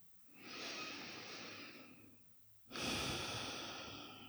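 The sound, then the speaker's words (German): One slow, deep breath in and out, a soft airy inhale followed by a short pause and then a louder, fuller exhale, with no talking. “Atme tief ein und aus.”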